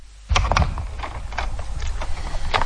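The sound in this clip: Hooves of horses drawing a carriage clip-clop in a loud, steady run of many hollow knocks over a constant noisy rumble, which starts abruptly after a brief quiet moment.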